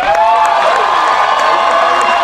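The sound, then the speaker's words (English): A British studio audience cheers and applauds as the creator of a new Star Wars series is introduced, a loud, continuous roar of claps and shouts. “Make a loud and exciting and excitable noise as we introduce a brand new Star Wars project in production right here in Blighty. Please welcome, count them, creator, showrunner, writer, executive producer, and director of The Acolyte.”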